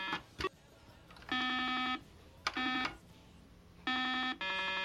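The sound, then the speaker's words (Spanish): Beeps from a Simon electronic memory game playing its melody: a few buzzy, sustained electronic tones of differing pitch in a stepped sequence, with brief clicks at the start. “Es un juego de memoria en el que vas escuchando una melodía que se prende una luz de color y tienes que apretar la misma hasta que pierdas.”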